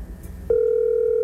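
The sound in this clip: A steady telephone dial tone starts abruptly after a brief low murmur and holds unbroken at an even pitch to the end.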